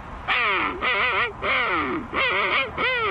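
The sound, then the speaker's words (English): A person imitates a king penguin call with five loud, nasal, honking bursts. Each has a wavering, warbling pitch, and short pauses separate the calls. “And next, the King Penguin.”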